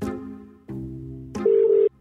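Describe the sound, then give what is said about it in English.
Telephone ringing on an outgoing call: a few steady electronic tones in short sections, the last one louder and higher before it cuts off. “I might just give him a call so you guys can be the judges.”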